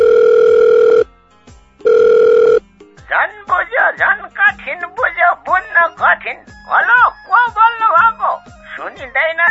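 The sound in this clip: An outgoing phone call rings out in two long, steady ringback tones separated by a short pause, after which people start talking over the line.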